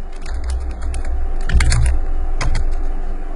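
Typing on a computer keyboard produces a quick, irregular run of many crisp key clicks at a fairly loud level, with no talking.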